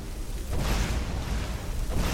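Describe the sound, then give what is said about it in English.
A fireball spell explodes against a troll in the Skyrim video game as a dense, roaring blast that swells early and stays loud and rumbling for about two seconds. “Once again, Addy's fireballs are literally throwing trolls across the way.”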